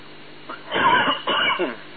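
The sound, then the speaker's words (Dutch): A coughing fit comes as two harsh, throaty cough bursts in quick succession, each fairly loud and rough, separated by a brief gap. No one speaks. “We krijgen een hoestbui.”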